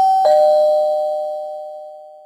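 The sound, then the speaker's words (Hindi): A doorbell rings at a front door, a bright two-note electronic chime whose second tone rings on and slowly fades away. “Mayank के पापा दरवाजे की घंटी बजाते हैं”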